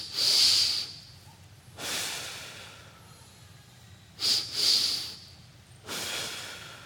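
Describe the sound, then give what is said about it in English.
A breathing exercise, in which two quick breaths are drawn in back to back through the nose and one long breath goes out through the mouth. The breaths are airy and hissy, set apart by quiet gaps, and the pattern repeats. “Two breaths in back to back through your nose and one long breath out through your mouth. It sounds like this.”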